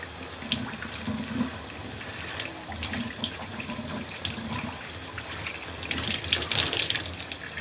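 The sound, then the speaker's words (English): Water runs steadily from a tap as a washcloth is rinsed in a sink during a facial skincare routine, a continuous splashing hiss with uneven spatters throughout and no talk. “And then the next step I'm gonna take is just wiping out my rag, my washcloth.”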